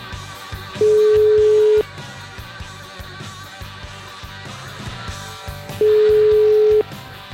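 Ringing tone of a telephone call going out, two long, steady, mid-pitched beeps about five seconds apart, each lasting roughly a second, over a low, busy background.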